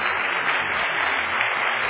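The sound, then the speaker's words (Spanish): An audience at a church service applauds, a dense, even wash of clapping that stays steady and moderately loud for the full two seconds, with a muffled, band-limited tone. “Dale un aplauso a la pantalla.”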